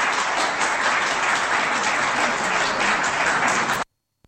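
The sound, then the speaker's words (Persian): Crowd applause after a cash gift is announced at a speech: dense, steady clapping for nearly four seconds, then an abrupt stop into silence. “بله، دستم میزنن براش.”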